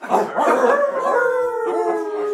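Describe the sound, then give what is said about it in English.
People in pup play howling like dogs, their voices imitating the sound: long, wavering, overlapping howls that rise and hold in a sustained chorus, loud and without speech. “Why do they always fucking howl? I don't know. Once one starts, the other one goes, and then it's a big mess.”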